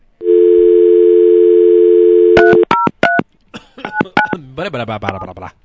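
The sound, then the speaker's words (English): A steady telephone dial tone gives way to a quick run of touch-tone dialing beeps as a number is dialed, followed by voices talking. “Okay. I hope I dialed that right.”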